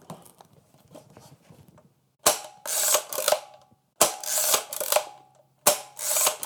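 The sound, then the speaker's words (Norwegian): A WWII-era American aerial photography camera runs its mechanism in three loud, rasping mechanical bursts of whirring and clattering, each lasting over a second, after a stretch of faint handling noise. “Så har jeg et amerikansk kamera for flyfotografering fra 2. verdenskrig. Det synes jeg er så artig at jeg må nesten demonstrere”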